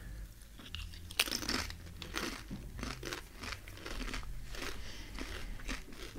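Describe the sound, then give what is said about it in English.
Loud, crisp crunching of Cheese Supreme Doritos being chewed, with many irregular crunches and a sharper bite early on, followed by steady munching with no talk. “Cheese Dorito. Cheese Supreme. Yep, Cheese Supreme.”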